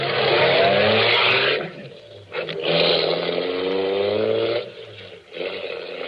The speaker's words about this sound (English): I drove back to the garage.